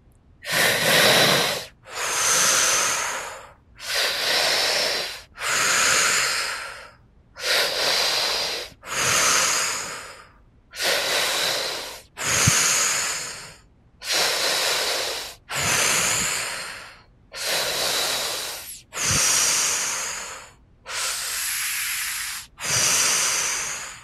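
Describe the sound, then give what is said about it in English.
A deep breathing exercise through the nose produces many forceful, airy breaths in a steady rhythm. Each hissing breath lasts about a second and is separated by short pauses, and no one speaks. “So together we're going to do that for about 60 seconds or so. And then we're going to take a deep breath in through the nose. We're going to hold at the top and then we're going to release.”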